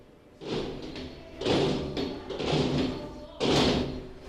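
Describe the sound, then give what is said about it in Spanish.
Wooden maquilla sticks thumping on the ground at a school during Santa Águeda celebrations, beating out the rhythm of coplas in a few heavy knocks about a second apart. “hablas de golpear las maquillas en el suelo al ritmo de la copla, y es lo que está pasando aquí en este colegio en el que nos encontramos.”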